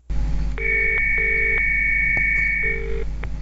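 Telephone tones sound as a voicemail is cued: a steady, high electronic tone runs throughout, with three short, lower beeps layered over it, all above a low background hum.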